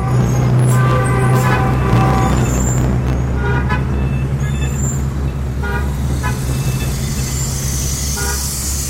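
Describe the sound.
Modern Beijing street traffic, a constant loud roar of cars and engines punctuated by repeated car horn toots, several honks rising over the low rumble throughout.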